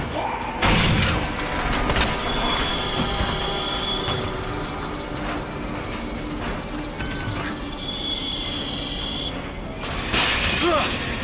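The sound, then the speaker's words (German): Loud glass shattering as zombies break through windows into a police station. One sharp crash comes near the start and another near the end, with a steady rumbling, mechanical noise bed between them. “Weitere Zombies kamen jetzt von außen durch die Fenster in die Station.”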